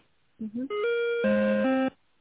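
Electronic telephone ringing while a call is transferred, a short melodic run of a few synthetic tones stepping between pitches over the thin line sound, then cutting off abruptly into quiet.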